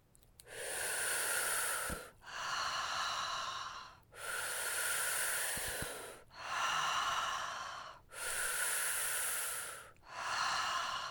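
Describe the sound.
Breathing exercise: a sipping in-breath, as if drawn through a straw, alternates with a breathy open "ha" on the exhale. About three steady rounds of inhale and exhale follow one another, each breath clear and fairly strong.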